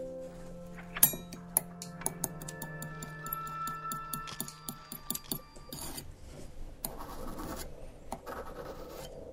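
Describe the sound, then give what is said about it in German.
Blade scraping and tapping on a marble plate as crystal meth is chopped fine with a card. Many sharp ticks and short rasping scrapes come in an uneven rhythm, and the scraping grows denser and broader toward the end. “Eine Marmorplatte, ein Röhrchen zum Ziehen, eine Karte und eine Klinge zum Klein machen. Also erstmal der Karte klein machen, mit der Klinge runterschaben”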